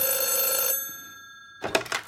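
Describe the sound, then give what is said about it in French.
A telephone bell rings once with a bright, ringing tone that fades out, then a short noisy burst follows after a pause. “En 2006, votre téléphone a sonné et reconstitution.”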